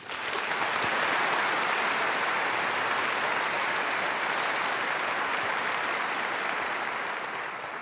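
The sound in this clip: Applause from a Colorado Symphony concert audience welcoming the resident conductor back on stage: a dense, steady wash of clapping that holds at full strength for several seconds, then eases slightly at the end.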